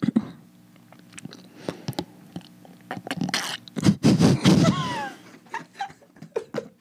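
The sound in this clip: Close-up ASMR mouth sounds of someone drinking a coffee drink: wet clicks, sips and smacks in irregular bursts, busiest toward the middle, where a short stretch of voice also comes through.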